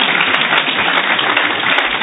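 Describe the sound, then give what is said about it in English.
Hand clapping from an audience listening to a talk about faith: a dense, steady patter of claps, loud and continuous, with no voices over it. “Yeah, you can clap”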